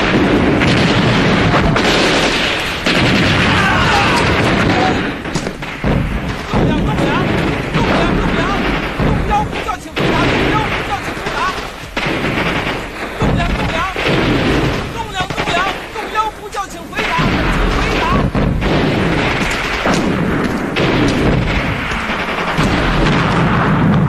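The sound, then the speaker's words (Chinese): Artillery fires in a battle to storm a walled city, ordered in after a red flag goes up on the southeast corner. Dense, loud booms and blasts roll on with almost no break for the whole span. “红旗东南角先登城了， 命令炮兵严射击。”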